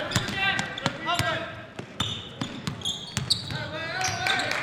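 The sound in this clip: A basketball dribbled around the perimeter during a game, many sharp, regular bounces under continuous talk.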